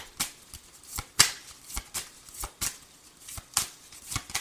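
Tarot cards shuffled by hand, a steady run of crisp, papery slaps and riffles coming as many short bursts in an uneven rhythm, with no talking.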